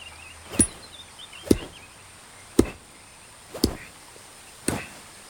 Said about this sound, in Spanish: Con el mango del cuchillo golpea el tronco.